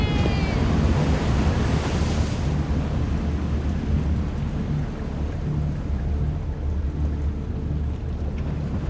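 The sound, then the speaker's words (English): Roaring rush of water flooding a tunnel: a loud, dense, continuous wash of noise over a deep rumble that holds steady throughout, with no voices. “I hear it too. The tunnel is flooding!”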